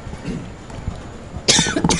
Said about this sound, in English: I think we're both coughing there. We need a cough button.